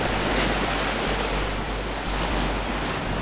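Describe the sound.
Ocean waves at the seashore in Reykjavik make a steady, dense rush of surf with wind noise over it. The sound is continuous and fairly loud, with no voices.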